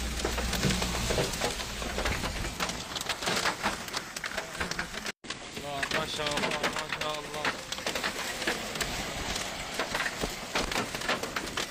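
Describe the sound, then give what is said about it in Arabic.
Hail from a storm in northwest Syria pelts down in a dense, continuous clatter of tiny impacts. The sound is steady throughout, with people talking over it. “ما شاء الله ما شاء الله برد ما يضرب.”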